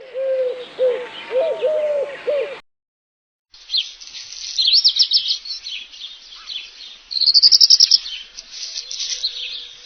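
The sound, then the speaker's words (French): A Eurasian collared dove calling with a run of low, repeated coos. After a short silence, higher, busier chirping bird calls follow. “La tourterelle turque.”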